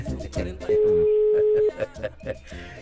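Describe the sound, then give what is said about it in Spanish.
A telephone ringback tone plays during a call: one steady, mid-pitched tone lasting about a second, set among people talking before and after it. “y está timbrando ya, claro.”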